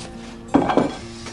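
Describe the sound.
A salad bowl is set down on a kitchen island, making a clattering knock with a second knock right after it and a faint tap later. The sounds are short and fairly loud, with no talk.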